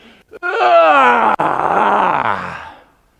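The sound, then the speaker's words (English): A voice imitates a yawn with one long, drawn-out, loud vocal groan that glides downward in pitch and trails off at the end. “You know when people yawn? Have you seen that in the morning? It's like,”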